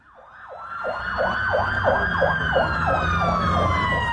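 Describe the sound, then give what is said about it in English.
Emergency vehicle sirens in Belfast: a rapid yelping wail sweeps up and down many times over a steadier high tone. It grows louder at first, then holds steady. “The sound of emergency services in Northern Ireland's biggest city, Belfast”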